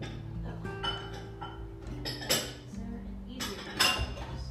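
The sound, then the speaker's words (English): Bowls and cutlery clink faintly as they are handled while oven French fries are prepared. A couple of brighter clinks stand out over a steady low hum. “I'll just use this bowl. This one'll be fine.”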